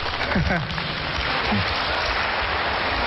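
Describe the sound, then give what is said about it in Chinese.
Warm audience applause greeting two crosstalk comedy performers, a steady wash of clapping with brief spoken voices over it. “谢谢大家给我们这么热烈的掌声。”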